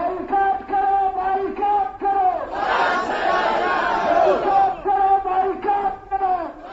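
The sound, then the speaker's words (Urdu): Crowd of Ahl-e-Sunnat Wal Jamaat protesters chanting anti-France slogans at a demonstration in Quetta, loud voices shouting in rhythmic bursts that swell into a sustained massed roar midway before the chanted bursts return. “ادھر کوئٹہ میں اہل سنت والجماعت کے کارکنوں نے مظاہرہ کرتے ہوئے فرانس مخالف نعرے بلند کیے.”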